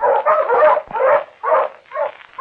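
Hunting pointer dogs barking as they enter the woods: a quick series of loud, high yelping barks and yips in short bursts, one after another.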